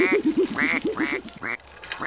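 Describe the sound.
A duck quacks in a rapid series of many nasal, raspy calls, some lower and some sharper and higher, bunched together in quick bursts and then tapering off near the end.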